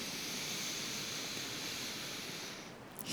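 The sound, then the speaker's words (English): A deep breath drawn in through the nose during a guided relaxation practice: a faint, steady, airy hiss that lasts about three seconds, alone with no talk. “take a huge breath in through the nose”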